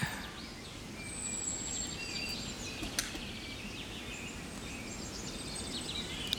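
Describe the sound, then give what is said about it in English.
Several birds singing in trees, with scattered high chirps, whistles and short trills rising above a steady, fairly loud background hiss and low rumble. The calls are faint and overlap through the whole clip. “There are several birds singing.”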